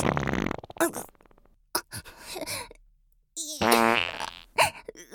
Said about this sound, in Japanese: おなら出ちゃう、漏れちゃう